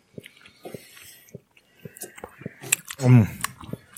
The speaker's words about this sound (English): I think we'll chew into the microphone too. Yeah, you chew while you're telling us what your favorite thing is. It's great. It's jerky.